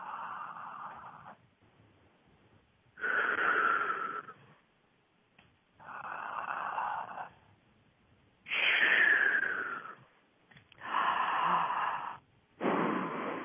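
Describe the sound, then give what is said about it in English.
Deep breathing during a breathing exercise: a series of long, airy, hollow inhales and exhales in a steady rhythm, each broad breathy swell separated by a brief quiet gap. “Like that? Yeah, long, long, deep inhale.”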